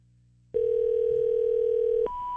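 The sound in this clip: A telephone dial tone drones steadily while a call is placed. The smooth hum cuts in abruptly, holds level, then switches to a fainter, higher tone near the end.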